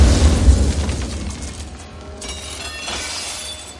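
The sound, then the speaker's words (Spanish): A small thrown box explodes with a loud, sudden burst. Shattering, crackling debris follows and fades over a few seconds. “lanza una cajita que estalla.”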